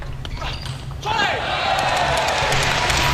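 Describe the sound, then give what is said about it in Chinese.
Table tennis serve by Moregard: a few sharp, light clicks of the ball striking paddle and table in the first second, then a louder, steady wash of background noise that carries on to the end. “莫雷加德发球”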